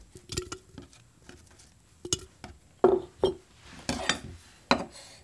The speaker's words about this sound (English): And as you're slicing these cucumbers, you're just going to want to put them directly into the jar.